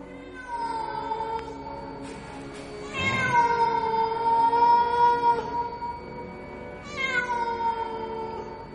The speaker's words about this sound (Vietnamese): Chợt có tiếng mèo kêu vang lên đến rợn cả gai ốc.